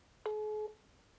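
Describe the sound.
A telephone ringback tone heard while placing a call: one steady, low electronic beep lasting about half a second, then silence over faint background hiss.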